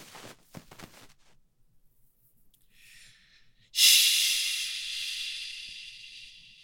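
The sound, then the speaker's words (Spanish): A person makes a long, loud shushing hiss that bursts out suddenly and then slowly fades over several seconds, coming after a softer, shorter hiss. “tú hiciste un shush”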